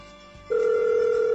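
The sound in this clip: A telephone ringing on a call placed to a fast-food restaurant: after a brief quiet lead-in, a loud, steady electronic ring tone starts abruptly and holds unbroken to the end.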